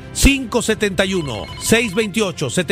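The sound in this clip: A telephone rings for an incoming listener call on a Spanish-language call-in program, with repeated ringing bursts layered over tonal, voice-like sounds.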